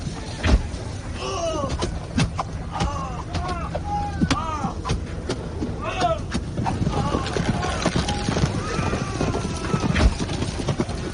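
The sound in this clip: Cavalry horses gallop in a battle charge, producing a dense, continuous clatter of hoofbeats with several high whinnies rising over the din.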